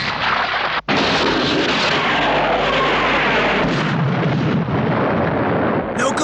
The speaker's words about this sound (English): Let's try laser torpedoes.